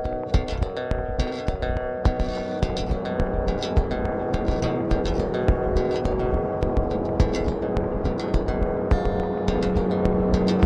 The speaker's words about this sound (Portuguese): Ela ligou o veículo e pisou no acelerador, seguindo em frente e deixando seu irmão.